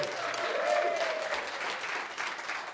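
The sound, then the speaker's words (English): An audience applauds a live performer, with steady, dense clapping that holds at an even level for the whole stretch before easing slightly toward the end. “what a great crowd you are. Give yourselves a big round of applause.”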